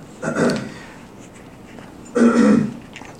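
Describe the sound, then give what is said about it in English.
Two short bursts of throat clearing during a church service, each a rough, raspy rasp lasting about half a second, separated by a quiet pause with no talk. “Is that a clearing of the throat?”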